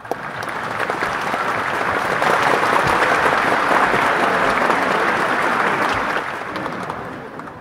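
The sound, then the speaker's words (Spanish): An audience applauds in a hall with dense, continuous clapping. It builds over the first couple of seconds, holds strong, then thins and tapers in the final stretch. “Cuando Descartes termina su exposición, todo el salón estalló en aplausos. Algunos hasta se pusieron de pie.”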